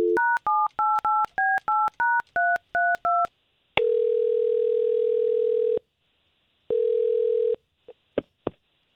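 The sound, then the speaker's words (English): A telephone number is dialed for a call: a rapid run of about ten touch-tone beeps, then two steady ringing tones separated by a pause, ending in a few sharp clicks. “I'm going to take the phone number that you gave me for Sal, and I'm going to give him a call.”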